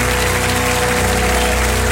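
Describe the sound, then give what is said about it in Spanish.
A crowd applauds in a dense, steady wash of clapping that stays loud and even throughout, with no voices. “Que ese aplauso sea eterno.”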